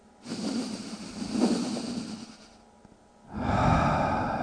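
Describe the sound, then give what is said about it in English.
A person performs a stuttering, catching breath, the shaky kind taken when about to cry. There are two long breathy stretches, the second louder and fuller, with no talking. “stutter breath. And it sounds like the sound that you make when you're about to cry, that same breath. And it sounds like this. I'll do it again.”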